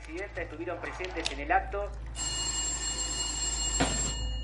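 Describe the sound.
A telephone rings in a home living room: a steady, bright bell tone begins partway through, after a stretch of voices, and runs to the end with a brief knock near the close.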